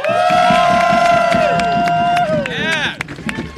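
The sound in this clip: An audience at a live show cheers and applauds a journalist guest as she is welcomed. Loud crowd noise carries long, high sustained whoops, and the cheering thins out toward the end.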